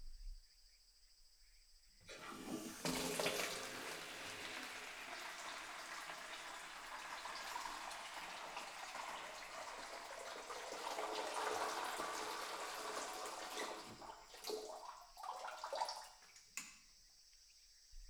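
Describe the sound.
Cold water runs from a tap for a rinse over a person's head. A soft, steady splashing stream starts abruptly, holds for about twelve seconds, then breaks into a few uneven splashes before stopping.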